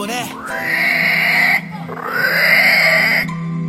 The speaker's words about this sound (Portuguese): Especial, mataram o javali.